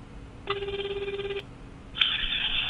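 Telephone ringing heard while placing an outgoing call: a loud, warbling ring burst of about a second, a brief pause, then a brighter, higher-pitched ring that begins and continues to the end.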